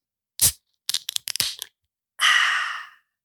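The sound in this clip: A bottle of barley wine being cracked open: one sharp crack, then a quick cluster of short clicks and scrapes, followed by a steady fizzing hiss lasting under a second.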